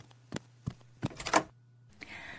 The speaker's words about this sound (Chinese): 我去开门。哦，来了来了，人家这就给你开门来了。